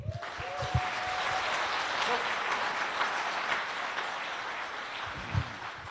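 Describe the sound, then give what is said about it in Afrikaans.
Audience applause at a church revival service: a dense, steady wash of clapping that lasts about six seconds, with a few sharper claps standing out from the crowd noise. “Kom ons gee hom 'n klap.”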